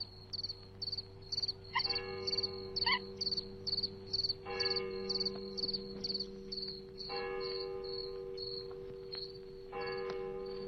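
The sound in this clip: A church bell tolls the hour in slow, spaced strikes, its ringing tones set against loud, constant chirping crickets.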